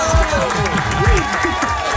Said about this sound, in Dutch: En nog even een heel groot applaus voor Elise.